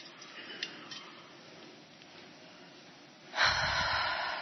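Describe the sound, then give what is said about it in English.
A deep breath drawn in during a guided breathing exercise: after a quiet stretch, a sudden breathy rush of air begins and carries on, steady and fairly loud, to the end with no talk. “And let's do that one more time. Go ahead and breathe it in.”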